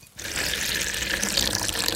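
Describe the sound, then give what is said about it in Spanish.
Water pours from a bottle into a jícara, a dried gourd bowl, with a steady rushing splash. It starts after a brief quiet moment and continues evenly to the end. “Ahora, póngale un poco de agua de mi botella y va a ver lo que esta jícara puede”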